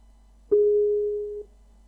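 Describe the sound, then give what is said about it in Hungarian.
An outgoing phone call tone: a single steady, mid-pitched beep lasting just under a second, alone over a quiet background. “Oké, hívlak benneteket.”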